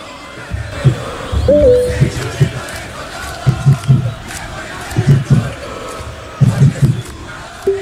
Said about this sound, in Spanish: Buen marco de público para lo que es un Audax Colo Colo, digamos las cosas como son